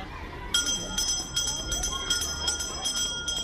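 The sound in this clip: A school bell rings to end recess at a school in Jordan: a bright, high, insistent ringing starts about half a second in and carries on in pulsing bursts to the end.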